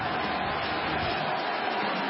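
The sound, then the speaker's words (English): A stadium crowd, chanting USA as news of Osama bin Laden's killing spreads, gives off a dense, steady roar that holds at an even level throughout with no break. “We've got a chant of USA as the news goes through the crowd.”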